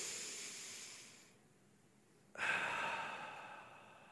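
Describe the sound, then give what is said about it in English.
A deep breath drawn in and then let out: a soft, airy hiss, a short pause, then a louder rushing exhale that slowly fades, with no talking. “Took a deep breath, and I let it out”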